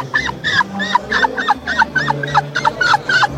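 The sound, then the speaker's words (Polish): A tired woman's voice imitates a seagull's cry with many quick, high, nasal squawks in a steady series, each one bending in pitch, over a low, steady hum. “czasami jak jestem bardzo zmęczona po koncercie, to też mewy mi wychodzą”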